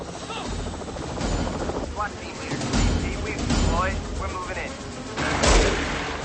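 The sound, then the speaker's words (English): A helicopter hovers during an FBI raid as ropes drop to the ground, its rotor a loud, steady, rushing roar with voices heard over it. “Ropes drop from the helicopter.”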